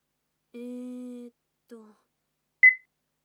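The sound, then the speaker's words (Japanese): An answering machine beep before a message plays: one short, high-pitched tone, preceded by two brief lower tonal sounds, with nothing else around it. “あら、留守電が入ってるわね。”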